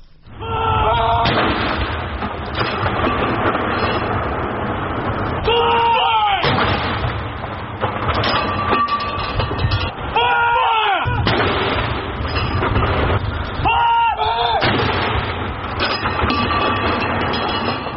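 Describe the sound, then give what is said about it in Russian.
Heavy booming military gun salute at the funeral of a former British prime minister, heard as a loud, continuous rumbling roar cut by repeated sharp bursts and thuds across the whole stretch. “І тут таксама прагучаў вайсковы салют.”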